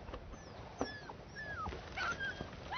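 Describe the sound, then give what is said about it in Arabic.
A dog whimpers outside a tent, wanting to be let in: a few thin, high whines that rise and fall, fairly faint over a steady background hiss. “هذا كلبي القائد بيورن، بظن حابب يدخل على الخيمة معنا”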